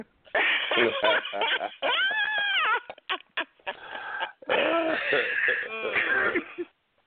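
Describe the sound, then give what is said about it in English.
A person clears their throat and makes harsh, rough vocal noises in several bursts separated by short pauses. “gargle those little hairs out your throat.”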